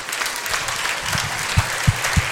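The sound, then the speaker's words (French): Audience applause at a tenth-anniversary concert in Roanne: dense, steady clapping fills the whole moment at an even loudness. “Et un maximum d'applaudissements pour la régie comme l'équipe Active Média sous vos applaudissements.”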